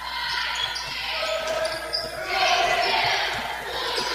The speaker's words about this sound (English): Dribbling around the defender